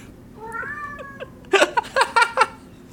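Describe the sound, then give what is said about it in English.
A pet cat meows indoors in another room: a drawn-out, wavering mid-pitched meow, fairly quiet, followed by a quick run of several short, louder bursts of sound. “That's a cat. That cat stays in. Dude, she's just sitting in the other room meowing.”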